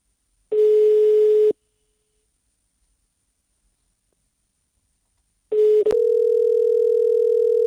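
Telephone ringing tone of an outgoing call that goes unanswered: one steady electronic ring of about a second, a long silence, then a second steady ring that holds until the end.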